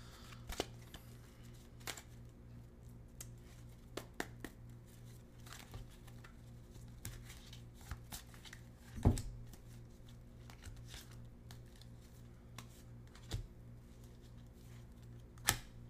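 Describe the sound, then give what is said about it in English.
Tarot cards being shuffled and drawn by hand: faint, sparse papery rustles and soft taps, broken by a few sharper snaps of card against card, with no talk. “All right, so I'm going to draw three cards.”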